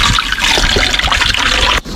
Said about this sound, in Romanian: Și voi pune apă. Deci 1 litru de apă la o pastilă de aspirină.